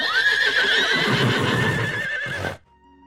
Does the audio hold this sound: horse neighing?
yes